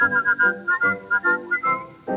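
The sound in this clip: A person whistles a bright, lilting tune in many short, detached notes at a steady, bouncy rhythm, loud and clear with no talking.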